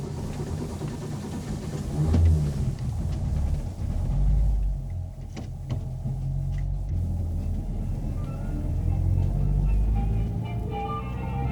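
Low engine rumble of a car driving off after a clutch fault was repaired. The drone is steady and swells slightly at times, with a few brief clicks and knocks over it.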